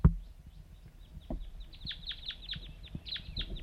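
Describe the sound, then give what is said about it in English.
A wild bird gives many short, high chirps in quick succession, faint over a quiet background, with a sharp thump at the very start and a few soft knocks. “Wild bird's calling.”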